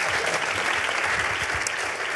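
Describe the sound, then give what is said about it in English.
An audience applauds: dense, steady clapping that stays loud and even from start to finish with no gaps. “Let's give Ollie a big round of applause”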